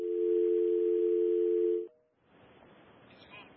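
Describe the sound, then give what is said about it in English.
Telephone dial tone on a call-in line after the caller dropped: a steady, loud, low electronic tone for about two seconds cuts off abruptly. Brief short tones and then quiet hiss follow, with no voices. “I think we've just lost the caller right there”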